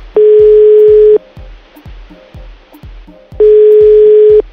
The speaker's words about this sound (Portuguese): Caiu a ligação.